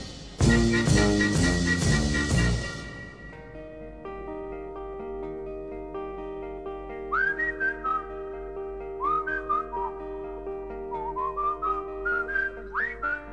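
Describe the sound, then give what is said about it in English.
A song whistled by a solo whistler: after a loud opening burst of chords, sustained tones hold underneath while clear, high whistled phrases with quick upward glides come in. “Now there's the kind of song you never hear anymore, with just a solo whistler.”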